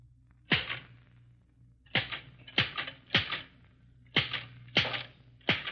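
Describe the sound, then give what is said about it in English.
Slow, uneven typewriter keystrokes from a woman in Wichita, Kansas, typing with a pencil held between her teeth: seven sharp, separate clacks spaced roughly half a second to over a second apart over a faint low hum. “8 words a minute, typed by a mother of 2 children by holding a pencil between her teeth.”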